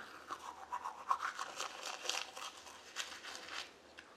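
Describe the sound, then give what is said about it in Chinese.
Faint brushing of teeth with a toothbrush, a soft, rhythmic scrubbing of quick bristly strokes repeating steadily, with no voices. “我正在刷牙。”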